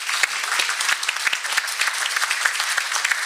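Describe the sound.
Warm audience applause welcomes a speaker at an Alaska gathering, a dense, steady wash of many hands clapping at an even level throughout.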